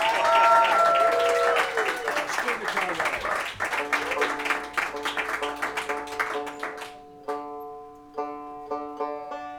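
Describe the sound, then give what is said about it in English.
Audience applause at a live concert rises in a dense burst with a voice mixed in, then fades after several seconds. Plucked string notes ring out alone as it dies away. “Give these boys a round of applause for doing that.”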